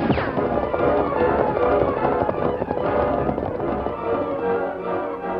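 Gunshots fired at two riders fleeing along a desert trail toward an arroyo, many bangs packed into a dense, continuous crackle that stays loud throughout.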